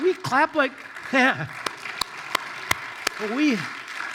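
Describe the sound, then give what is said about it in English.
Sharp claps from an audience during a church service, struck in a steady rhythm as a show of agreement. A few distinct claps sound between stretches of a person talking. “when we clap like that in this service, we're not clapping for the people up here. That's not what we're doing. This is just like, yes, yes, yes, I agree.”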